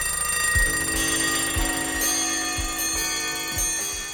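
Alarm clocks used as a rock band's sound effect: steady, fairly loud ticks about once a second under sustained, bell-like ringing tones.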